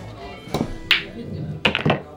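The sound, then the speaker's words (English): Billiard balls clack as the eight ball is shot into the corner pocket: a few sharp, bright knocks spread unevenly over a low steady hum. “8 ball, corner pocket.”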